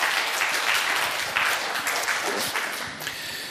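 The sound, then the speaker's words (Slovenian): A stage show audience applauds a guest doctor with steady, dense clapping. The applause stays loud and even, then eases slightly near the end. “Ker aplaus prosim.”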